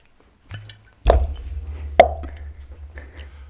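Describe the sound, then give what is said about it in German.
Cork popping as a bottle found floating at sea is opened: a few sharp, hollow plops over a low rumbling undertone. “Da, da schwimmt eine Flasche. Ja, dann mach mal auf.”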